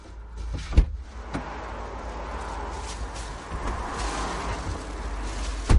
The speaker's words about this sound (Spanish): Camina hacia el coche. Abre la puerta y monta.